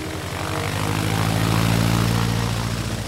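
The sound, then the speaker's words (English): A P-47 Thunderbolt propeller fighter plane in flight, its engine producing a loud, continuous low-pitched drone with a steady propeller hum that swells slightly toward the middle. “In short order, Corny climbed into the cockpit of his brassy P-47 Thunderbolt and returned to the sky.”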